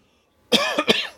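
A person gives a short fit of coughing, three quick rough hacks in close succession after a moment of quiet, with no speech around them.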